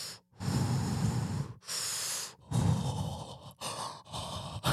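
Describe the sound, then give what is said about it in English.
A person imitates heavy, creepy breathing with a run of loud, raspy breaths, each a few seconds or less, separated by brief pauses. “Just heavy breathing, like pedophile Bigfoot.”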